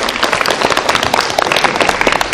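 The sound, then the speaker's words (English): Audience clapping during a live owl presentation: a short burst of dense, steady applause from many hands, loud and even throughout. “Now he does deserve a clap.”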